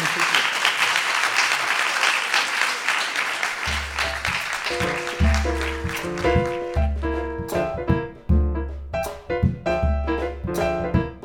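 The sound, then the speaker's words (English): Applause rises from the audience at a live library author talk before a book signing, a dense, steady clatter that gives way partway through to music with a pulsing low beat. “if they'd want to give you one last round of thanks before we head out to the signing area”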